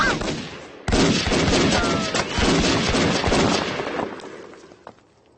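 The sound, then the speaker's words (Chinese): Sustained gunfire erupts during an ambush in which soldiers mistakenly shoot at their own side. After a brief quiet start, a dense, loud stream of rapid cracks and bangs runs on for several seconds before thinning slightly. “停止射击！”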